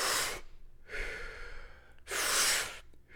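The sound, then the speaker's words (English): Rapid deep breathing in the Wim Hof technique, a few forceful, airy breaths in quick succession, loud rushing pulls alternating with softer releases, with no talking. “what you're supposed to do is charge up about 30 to 40 breaths that sound like this”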